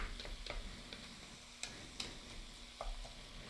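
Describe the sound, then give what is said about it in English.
Faint sizzling of nearly two pounds of ground meat browning in a pan, with a few sharp scraping stirs breaking through the low, steady hiss. “Now, once we get this ground meat all browned, it's going to come together pretty quickly.”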